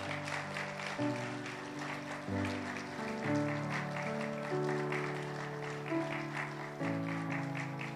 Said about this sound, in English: I'd like for you to stand up right now. I'd like for us to recognize you. So they're going to start standing up around this room. There we go. And let's give them a hand right now,